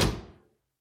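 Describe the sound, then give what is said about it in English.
A door closing with a single dull thud that fades out within about half a second, with nothing else heard. “Close the door, please. I'm cold.”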